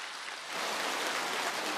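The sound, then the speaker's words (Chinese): Applause from an audience at a live event, a dense, steady hiss of many clapping hands that swells slightly louder after the first half second and holds evenly to the end, with no voices over it. “鼓掌。”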